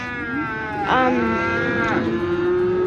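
A child imitates a cow's moo: a long, drawn-out, nasal lowing call that swells slightly in loudness and bends in pitch partway through, heard alone and loud.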